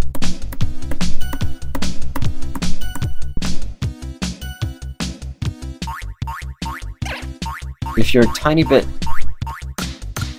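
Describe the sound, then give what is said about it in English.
Springy cartoon boing effects from the Bunny Hop rhythm tapping video game, with many quick bouncing boings in a fast, steady beat over backing music. “If you're a tiny bit too early, it'll make a eerie kind of noise instead of the boing.”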